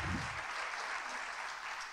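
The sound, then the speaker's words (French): Audience applause following a group role-play exercise, a dense and even patter of many hands clapping, fairly faint and continuous from start to end. “On va les applaudir. Bravo. Bravo.”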